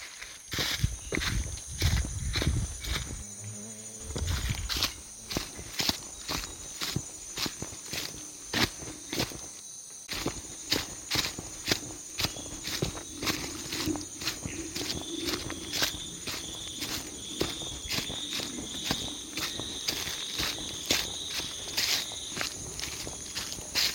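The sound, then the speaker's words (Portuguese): Footsteps tread through a jungle at night, many steady, evenly paced steps under a constant high chorus of insects and crickets, with a brief pause near the middle. “Caminhar à noite pela selva é um desafio, uma experiência extraordinária”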